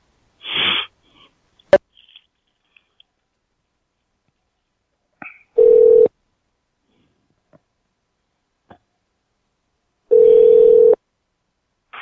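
Telephone tones as a call is placed: a few short clicks and blips, then two steady ringing tones of under a second each, separated by a long stretch of near silence.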